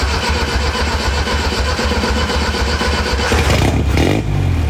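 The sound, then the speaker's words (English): A carbureted straight four-cylinder engine runs with a loud, rough, continuous drone, and its tone changes briefly near the end. “Oh, that's a four cylinder. Yeah. Uh-huh. Well, what is it? Kind of rat sounding. It's not like a Volkswagen thing or something, right? No, no, no. That's a straight four.”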